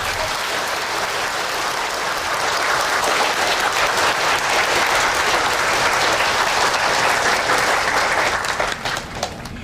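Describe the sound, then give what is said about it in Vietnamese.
Students in a classroom break into applause, a dense, steady clapping that stays loud and continuous for nearly ten seconds. “Còn chưa giảng gì hết đã có nhiều học sinh vỗ tay rồi.”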